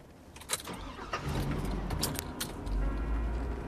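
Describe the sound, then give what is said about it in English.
A car drives off, its engine giving a low, steady rumble with a few brief sharp clicks and rattles over it. The drone grows heavier toward the end. “The car drives off.”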